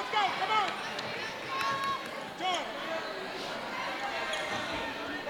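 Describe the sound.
Basketball dribbling on a court during a game, with repeated thumping bounces and high sneaker squeaks, set under voices and low crowd noise.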